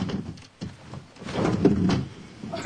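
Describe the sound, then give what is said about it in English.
A sash window is pulled open with a few scraping, sliding bumps in its frame; the loudest rub swells in the middle before easing off, with quieter knocks around it. “She pulls open the sash.”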